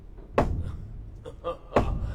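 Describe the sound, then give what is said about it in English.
Someone knocks on a door at a castle gate. A few heavy, uneven thuds sound, with a strong first knock, softer ones in the middle and another strong blow near the end. “Here's a knocking indeed.”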